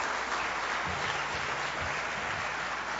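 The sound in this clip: Audience applause welcoming a speaker at a church gathering: dense, steady clapping that holds at an even level for about three seconds, with no talk over it.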